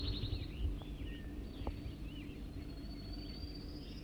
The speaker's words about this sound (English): Wild bird again.